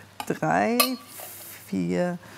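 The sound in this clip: Pieces of food are set onto a plate, with a few brief clinks of utensils against the plate early on and a voice heard throughout.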